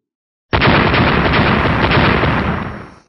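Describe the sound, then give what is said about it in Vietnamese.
An explosion erupts abruptly, then continues as a loud, dense, roaring blast for over two seconds before tailing off. It comes as weapons strike an ice wall, and nothing else is heard alongside it. “Bốn tiếng nổ liên tiếp vang lên”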